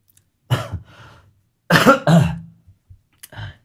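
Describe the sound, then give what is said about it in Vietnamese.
A person coughs in a few harsh bursts, with short pauses between them and quiet around them. “Đang ho mà.”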